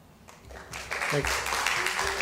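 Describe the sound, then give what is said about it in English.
Audience applause at a commission meeting, starting faint and swelling into steady, loud clapping after about a second, with a voice briefly heard over it. “Please, let's please hold your applause and boos till the end of the meeting, please.”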